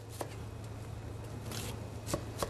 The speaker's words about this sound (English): Next, we're going to need about a quarter of an onion, and we're going to mince it finely. I'm going to make small, thin slices.